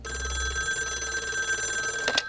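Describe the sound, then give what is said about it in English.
A telephone rings at night with a steady, rapidly trilling bell tone that continues through the whole clip at an even level. “one night the phone rang and awoke us.”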